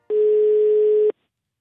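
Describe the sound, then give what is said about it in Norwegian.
Telephone ringback tone from an outgoing call, a single steady, mid-pitched tone lasting about a second and then stopping, heard alone with no voices. “Derfor ringer vi han, den eneste Frode Johnsen.”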